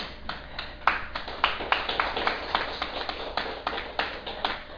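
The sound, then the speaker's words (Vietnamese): Weak audience applause: sparse, scattered hand claps with an uneven rhythm, many separate claps standing out rather than blending into a roar, moderately quiet for about five seconds. “Cả hay quá mà vỗ tay yếu thiệt ấy. Xin đề nghị vỗ tay lại.”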